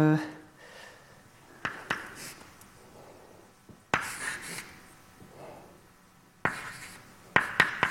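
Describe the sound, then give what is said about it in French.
Scratchy pen or chalk strokes as a mathematical formula, a Taylor expansion in powers of 1/n, is written out in several short bursts with sharp taps, while a lecturer speaks between them. “alors je vais l'écrire comme ça.”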